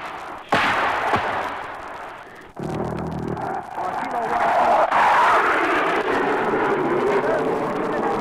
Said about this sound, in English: some artillery and airstrikes in here. The artillery has started to come in.